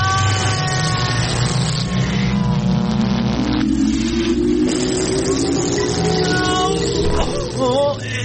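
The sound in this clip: A car engine revs in a loud drone that climbs steadily in pitch over several seconds, mixed with other tonal sounds and wavering voice-like tones near the end.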